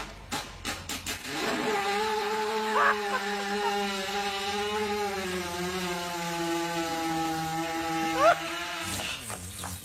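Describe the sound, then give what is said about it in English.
A horse lying on its side passes gas in one long, buzzing, low-pitched rasp that wavers slightly in pitch and lasts several seconds, with a few brief noises before and after. “So when they have digestive discomfort, what happens? They lie on their sides and just let one go. Here's a little sound bite.”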